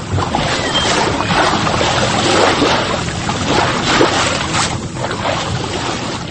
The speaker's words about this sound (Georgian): მათ კი, ვისაც ქალაქიდან გასვლა ჯერ არ დაუგეგმავს, უბრალოდ ესიამოვნება ზღვის ტალღების ხმაურის მოსმენა.